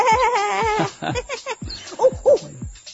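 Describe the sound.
A voice imitating a sheep's bleat, a person playing a sheep from the Chinese zodiac: a long wavering, quavering tone comes first, followed by a few shorter nasal bleating cries.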